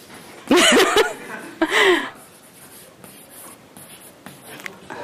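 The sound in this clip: Chalk writing on a board with a very short stick of chalk: faint, dry scratching strokes after a brief burst of chuckling.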